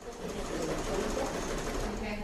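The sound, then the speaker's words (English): Steady, continuous whirring of a sewing machine at a free sewing workshop held around a table in the back of a large sewing supply store in Valencia, running evenly throughout with voices talking over it. “This is a sewing supply store called The Spider's Web, the biggest in Valencia. In the back, gathered around a table, about a dozen women sew, darn, and stitch during a free workshop.”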